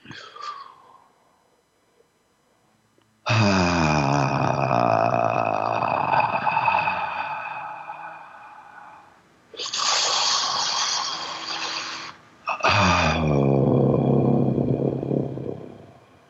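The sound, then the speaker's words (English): Deep breaths drawn in on instruction, heard as long, harsh, partly voiced breathing sounds: one long loud stretch, then two shorter ones separated by brief gaps, with no talk over them. “Breathe in as deep as you can.”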